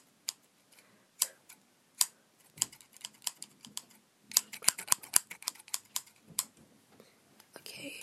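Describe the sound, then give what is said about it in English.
Scissors snip through hair during a hairstylist roleplay, with many crisp, sharp clicks in irregular bursts and quiet gaps between them. “Okay, I'm just gonna just cut the same length for that side.”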